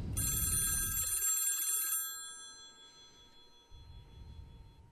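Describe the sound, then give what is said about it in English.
A telephone rings after a call is dialed: one bright, buzzing ring lasts about two seconds, then a fainter steady tone lingers as a low rumble fades in and out. “Let me give him a call. Just hang on here. I'm going to dial him. Here we go.”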